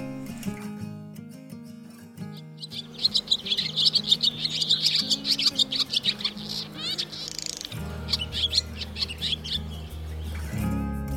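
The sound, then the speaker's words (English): Twittering calls of a mud-nesting bird that catches insects on the wing and builds cup-shaped nests of mud and straw: many bright, high chirps in quick succession over soft, low sustained music. “In the coming weeks, they'll begin gathering mud and straw to construct their cup-shaped nests. Listen out for their calls like this.”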